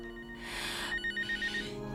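A telephone rings faintly. A broad soft whoosh is followed by a quick, pulsing electronic trill in short, even bursts, with no talking.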